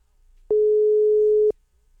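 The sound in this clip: A telephone ringback tone sounds while a call is placed: one clean, steady, mid-pitched beep lasting about a second, then silence.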